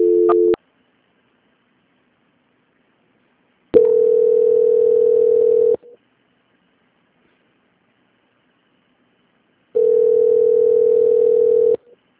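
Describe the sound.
A telephone tone plays during a call transfer: three steady, loud, mid-pitched beeps of about two seconds each, the first cut short, separated by long silences.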